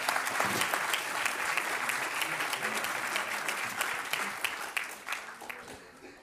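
A church audience applauds to welcome a pastor, a dense, steady clapping that gradually thins and fades toward the end.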